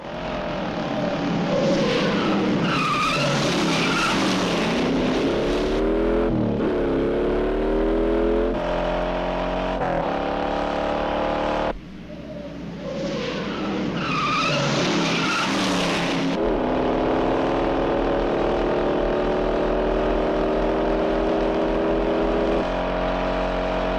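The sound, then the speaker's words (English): A battered sedan in a frantic car chase: a loud engine revs repeatedly with rising pitch, and tires squeal in bursts, with one brief dip midway through the continuous roar. “Down on the flat now, the sedan, rather worse for wear, drives frantically with Frank still close on its tail.”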